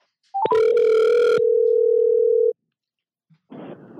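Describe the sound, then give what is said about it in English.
Telephone ringing out on an outgoing call: a short blip, then one long, steady electronic ring tone lasting about two seconds, alone, followed by silence and a brief faint rustle. “I'll give him a ring right now. Let's get him going.”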